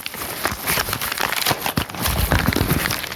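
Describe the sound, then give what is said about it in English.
A padded mailer bag with air pockets being torn open by hand: a few seconds of crinkling, crackling rips that come in uneven bursts, with no talking. “that looks like I can just tear open that”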